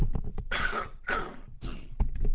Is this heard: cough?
yes